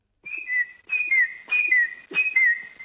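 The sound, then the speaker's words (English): A person whistles an imitation of the call of a noisy miner bird: four clear, high phrases, each a bright note falling into a slightly lower, gliding note, repeated at a steady rhythm. “I think what you're hearing is the noisy miner.”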